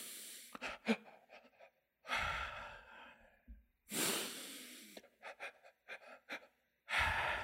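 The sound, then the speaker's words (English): Several deep breaths are taken to calm down while amped up, long airy rushes separated by short silences, with smaller sniffs and breathy bursts in between, and no speech. “Let's just breathe together.”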